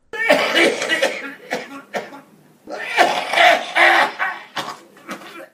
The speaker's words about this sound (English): And out of nowhere will come this phlegm-filled throat bomb. And I'm like, God damn, that sounds wrong.